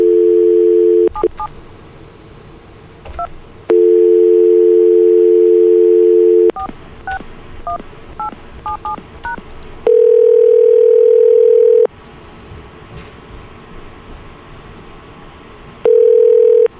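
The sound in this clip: A telephone dial tone and touch-tone dialing as a call is placed through a conference bridge. Steady tones alternate with quick runs of keypad beeps, then a different long tone sounds in two separate stretches, all without talk.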